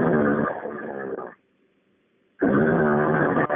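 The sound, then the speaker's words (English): A voice imitates a steady, consistent growl coming from a thick stand of river cane. It makes two long, rough, low rumbles with a one-second silence between them, each held evenly at a strong level. “that's where it was coming from, this growling. And it just was real consistent, just like,”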